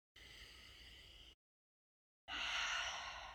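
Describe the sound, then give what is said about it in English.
A deep breath taken to reset before a tarot card reading: two long, soft, airy breaths separated by a second of silence, the second one louder and fuller, heard alone and fairly faint. “I'm going to take a deep breath here just to reset.”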